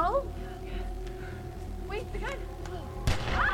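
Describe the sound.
A gunshot from a movie: a single sharp, loud crack near the end, with its rumble trailing on. It sits over a dense, steady film soundtrack that includes voices.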